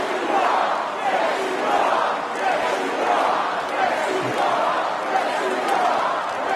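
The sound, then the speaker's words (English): A crowd at a Trump rally chants in unison in answer to him, a loud massed roar of voices rising and falling in a steady repeating rhythm throughout. “When Trump said, "I'm not supposed to be here tonight," the crowd responded with,”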